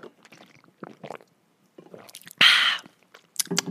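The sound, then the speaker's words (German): Someone takes a sip of a drink, producing soft mouth noises followed by one louder, brief slurping burst and a few quieter sounds afterward. “So, jetzt muss ich mal ein Schlückchen trinken, also kurze Pause.”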